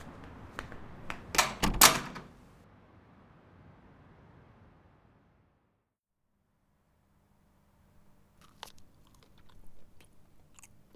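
Someone chews cornbread with a cluster of crunchy bites early on, then the sound falls away into near silence before a few faint, soft clicks at the end.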